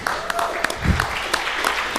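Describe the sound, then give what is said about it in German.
Audience clapping at a talk, a dense, continuous burst of applause with sharp individual claps standing out. “Ja, das geht jetzt von meiner Zeit ab, das Klatschen. Das ist ja ganz unfair.”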